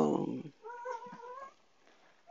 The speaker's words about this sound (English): and that is my co-star, Bear. Bear the cat. It's his midnight snack time, so he's hungry. Sorry about that.